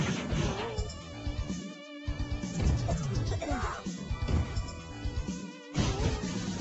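Crashing and smashing as scaffolding, crates and bins are destroyed and thrown in a video game, with many dense impacts packed over a busy, continuous backdrop, pausing briefly at two points.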